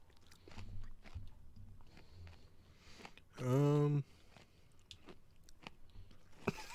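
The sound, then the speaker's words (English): Crunching and chewing of an Oreo cookie: soft, irregular bites and mastication throughout, broken midway by a short, loud, steady voiced hum. “I'm going to try this again. It just tastes like a generic Oreo. Tastes like tar.”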